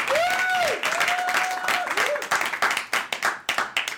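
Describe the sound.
Audience applause welcoming a comedian to the stage at a comedy show. A voice is heard at first, then crisp individual claps grow more distinct and scattered toward the end.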